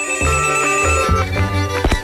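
A telephone rings loudly with an incoming call. The steady ringing tone runs through the whole clip with a few low knocks beneath it and no talk.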